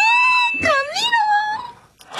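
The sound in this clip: A person whimpers and moans in a car during a driving lesson, a continuous whining voice that wavers up and down in pitch for well over a second before a short, abrupt sound at the end.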